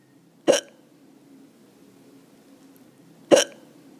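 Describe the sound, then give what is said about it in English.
A woman hiccups twice, about three seconds apart. Each hiccup is a short, sharp, loud catch of breath against near silence. “that was my mom having the hiccups.”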